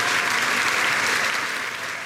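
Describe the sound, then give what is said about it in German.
An audience applauds a pianist at a festival, giving a thick, continuous roar of clapping that stays full and steady before easing slightly at the end. “Applaus und Standing Ovations, Getrampel und Jubel holte sich auch Ex-Intendant Markus Hinterhäuser, der vor und nach seinen Auftritten als Pianist vom Publikum gefeiert wurde.”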